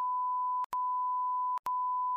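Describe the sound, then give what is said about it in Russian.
A censor bleep covers a swear word: a steady, loud, high-pitched beep tone runs through the whole clip, broken by two brief gaps, with no voices. “Блин, мне пикать придется.”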